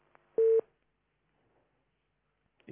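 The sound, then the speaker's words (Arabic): A telephone call disconnecting gives one short steady electronic beep after a faint click, then near silence before a brief noise at the very end. “يبدو أن اتصال مسلم انقطع، علي أن تعاود الاتصال بنا مرة ثانية”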